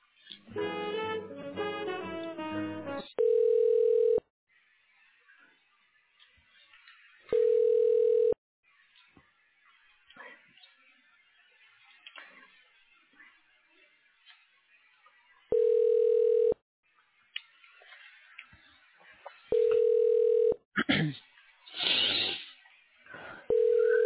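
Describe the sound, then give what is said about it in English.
Ringback tone on a telephone line while a call to a hospital connects: four long, even beeps, each about a second, separated by quiet gaps with faint low background noise between them. “All other callers, please press 0 and an operator will assist you. Thank you. Now connecting your call.”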